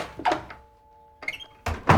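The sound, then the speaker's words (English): A front door opening and then closing: a few quiet clicks and thuds in two short clusters, separated by a brief lull. “opens and closes her front door”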